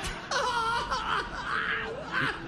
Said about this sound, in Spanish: Y llora bien, viejo. Consuélala.